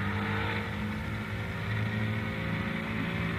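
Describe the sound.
A car drives slowly along a city street with a steady low engine hum and rumble. The sound holds level for the whole clip, with no voices.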